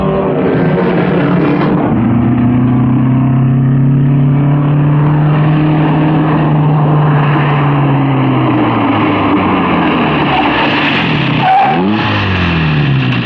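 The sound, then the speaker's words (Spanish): A racing car slows down, its loud, sustained engine drone holding a steady tone before dropping in pitch as it slows, with no talk. “Wanda Fisher acorta la velocidad para aproximarse a la gradería.”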